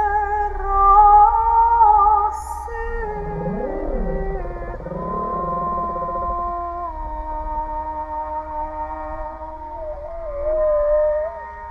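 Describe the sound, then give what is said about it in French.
A humpback whale calls, picked up by a hydrophone off a boat. Its long, moaning tonal cries sweep up and down in pitch alongside sustained musical notes played into the water from an underwater speaker. “Et au même moment, la réponse d'une baleine à bosse captée dans l'hydrophone.”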